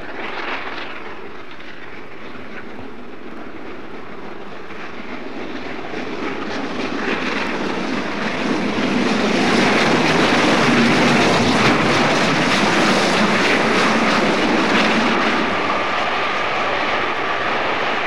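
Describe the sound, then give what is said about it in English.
A steam locomotive running past Elstree at high speed on a 1968 trip: a broad, steady roar that swells louder partway through and stays loud to the end, with no voices. “you can hear the locomotive now running past Elstree at considerable speed.”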